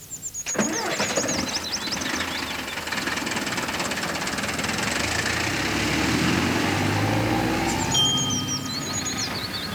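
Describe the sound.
A vehicle engine starts and settles into a steady rumble, then revs up gradually as the vehicle drives two people off to the hospital.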